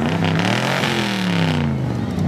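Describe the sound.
A 1981 DeLorean DMC-12 engine rumbles loudly at the Redhill Dream Cruise car event, its strong, steady revving note dipping lower in pitch toward the end.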